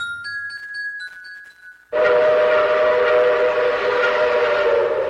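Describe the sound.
A train arriving at Floresta station: a high, thin whistle-like tone for about two seconds, then an abrupt, loud, sustained rumble of rolling cars with a steady droning hum underneath.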